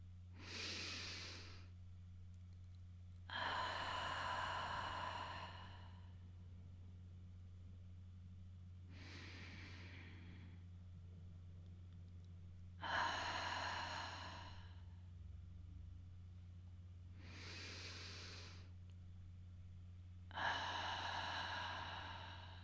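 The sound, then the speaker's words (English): Slow, deep breathing during a guided meditation: about three full cycles of an audible inhale followed by a longer, louder exhale, each breath separated by quiet pauses, over a steady low hum. “Let's breathe in and out a couple of times together.”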